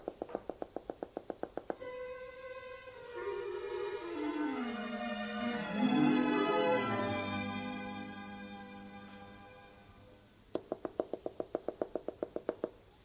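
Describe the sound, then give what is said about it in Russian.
Knocking on a door comes as a rapid series of sharp, crisp taps at the start and again near the end. A long, sustained harmonic tone fills the gap between the two runs of knocks. “Стучит.”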